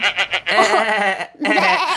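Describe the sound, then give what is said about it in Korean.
Sheep bleating at a ranch in Daegwallyeong, Gangwon Province, South Korea: two loud, long, quavering bleats, the first opening with a few short stuttered pulses, with a brief gap between them and no talk. “그리고 마지막 양소리가 매우 인상적이었어요. 그렇죠. 양소리요. 저희가 직접 양소리가 없어가지고 저희 강원도 가서 대관령 목장 가서 따왔어요.”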